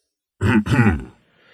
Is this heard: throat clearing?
yes

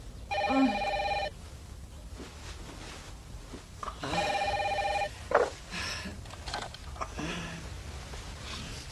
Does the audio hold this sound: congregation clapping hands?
no

